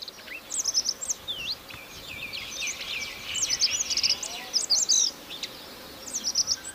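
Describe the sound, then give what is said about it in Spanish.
Song of Radde's accentor, Prunella ocularis, a small Caucasus bird: faint, high, short notes run together in brief repeated phrases, quick and soft above a low hiss. “Ahí se le oye bajito, pero está cantando el acentor de Rat. Su canto consiste en una serie de notas cortas, suaves y aceleradas que culminan en un trino breve.”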